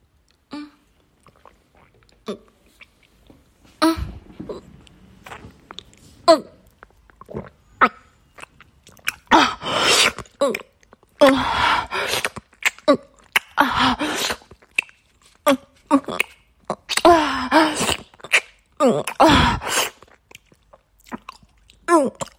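Wet mouth sounds of a mouthful of water being taken in and swallowed, with a few soft clicks followed by clusters of sharp, crunchy-sounding slurps and gulps that grow denser toward the end.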